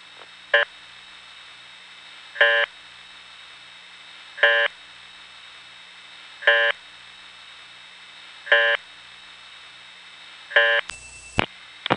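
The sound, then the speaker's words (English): Telephone reorder tone at 30 impulses per minute, following a recorded call-failure announcement: six short, buzzy harmonic beeps spaced evenly about two seconds apart over steady line hiss, then a brief burst of noise at the end. “they tell you that there's a reorder tone that is supposed to be like that, 30 impulses per minute. But in practice, in all my years of playing with the phone, what you just heard is the only place I've ever heard that tone used.”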